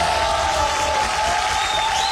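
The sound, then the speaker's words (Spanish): Dense applause and crowd cheering from a live show audience after a performance in La Paz, steady and loud from start to finish. “Así que este aplauso es para ustedes.”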